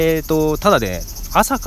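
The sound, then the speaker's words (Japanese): Cicadas in summer near the Nagoya Port Aquarium in Minato Ward, Nagoya, Aichi, with a typhoon approaching: a steady, shrill, high-pitched insect drone runs continuously beneath a person talking close by. “こうセミが鳴いているぐらいだからまだ大丈夫ですね。”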